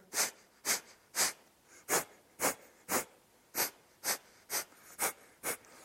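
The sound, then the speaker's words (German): Forceful nasal exhales through one nostril, the other held closed, during a yoga breathing exercise: eleven quick, breathy, hissing puffs in a steady rhythm of about two per second. “Du kannst so die Nasenlöcher kurz so schließen und ein paar Mal durch das linke Nasenloch ausatmen. Und dann durchs rechte.”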